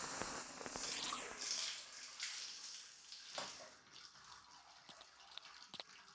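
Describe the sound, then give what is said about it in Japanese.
Running water rinses lotion off the body, a soft, steady rush with a few sharper splashes and drips, quiet and with no voices. “ローションは流し終わりました。”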